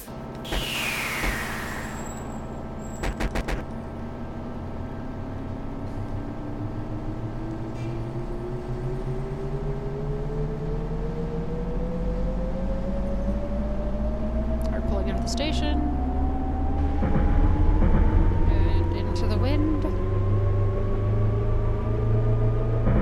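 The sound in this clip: A train's motor whine rises steadily in pitch as it accelerates in a train driving video game, over a constant low rumble with a few clicks at the start.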